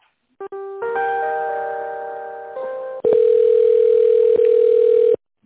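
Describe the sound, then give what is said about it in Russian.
Telephone tones while an office call is transferred. A short beep is followed by a chord-like tone that fades over about two seconds, then a loud steady single-pitch tone holds for roughly two seconds with faint clicks. “Сейчас я вас попробую перевести. Ага, хорошо. Спасибо. Перевожу.”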